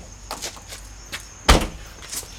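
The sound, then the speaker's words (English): A car door is heard as a driver steps out of the car at a roadside traffic stop: a few soft clicks and rustles, then one sharp, loud thud, and a faint click after it. “Lock off your car. Step out of the vehicle with your documents, please.”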